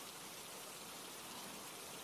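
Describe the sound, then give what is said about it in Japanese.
Gentle, steady rain falls as an even, soft hiss of many small drops, faint and unbroken throughout with no other sounds. “しとしと降り注いで、すがすがしい雨”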